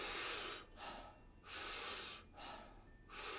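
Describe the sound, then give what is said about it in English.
Rhythmic power breathing: three loud, forceful breaths alternate with two softer, shorter exhales in a steady pulse, all breathy hiss and no voice. “It's a big power breath, soft exhale. We'll do it rhythmically. We'll do it together. It'll sound like this.”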